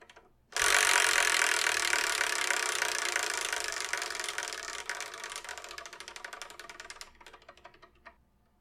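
A prize wheel spins with a rapid ratcheting clatter that starts abruptly, then slows gradually into spaced ticks before stopping.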